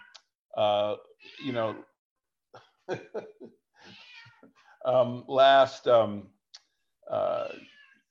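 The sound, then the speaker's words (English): A pet cat meows a few times in short, harmonic cries, with quiet gaps, scattered clicks and a cough between them. “let me just get the cat out.”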